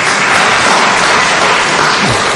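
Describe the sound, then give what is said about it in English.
An audience at a debate applauds, a dense, loud, steady wash of clapping that lasts the full length without a break. “I'm not sure whether the applause was for you or for me there.”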